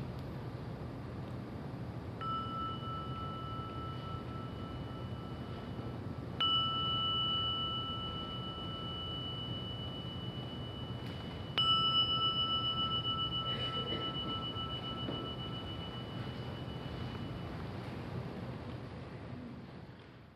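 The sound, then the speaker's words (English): A meditation gong is struck three times at the close of a guided session. Each strike gives a faint, clear ringing tone that sustains and slowly fades over a steady background hiss. “right now as you just listen to the sounding of the gong.”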